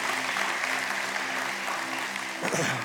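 Church audience applause, a dense, sustained wash of clapping that holds steady throughout and swells slightly near the end.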